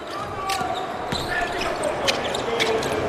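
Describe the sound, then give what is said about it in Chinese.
A basketball is dribbled on the court by Chinese player Feng Ao during a game. Several sharp bounces come at an uneven rhythm under background crowd noise and commentary. “冯奥运球找节奏，投一个，短了。”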